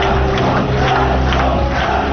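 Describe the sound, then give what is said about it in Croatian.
Dense crowd noise from delegates filling a packed hall at a Social Democrats party congress, a steady loud roar of applause and chanting that holds throughout with a low hum underneath. “Nakon što se pojavio u sali prepunoj delegatima, prolomio se aplauz i skandiranje Krivokapiću”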